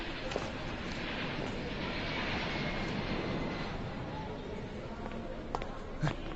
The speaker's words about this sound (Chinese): 哎，快来看，停机坪上两架波音737-800， 还铺了红毯，好像是专机呀